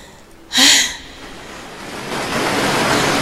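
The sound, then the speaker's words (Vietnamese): A large ocean wave about to crash: a short, loud splashing burst early on, then a broad rushing hiss of water that slowly swells louder toward the end, with no voices. “trước một con sóng lớn sắp ập tới, Nghiêm Dũng”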